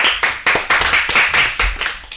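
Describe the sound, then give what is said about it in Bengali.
Hands clapping loudly in a steady, regular beat, about ten sharp claps from a group, with no talk over them. “একটু জোরে হাততালি দিতে হবে, সবাইকে উৎসাহিত করতে হয় না, জোরে হাততালি।”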